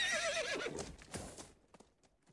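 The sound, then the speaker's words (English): Horses neigh across a river at night: a quiet, shrill whinny with pitch falling in wavering steps, followed by a few scattered, soft clip-clopping hoof taps as the sound fades. “Then they heard horses across the river.”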